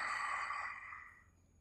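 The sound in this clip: A long exhaled breath released during a seated yoga twist: a soft, airy hiss that starts fairly strong and slowly fades out over about a second and a half, with no talking.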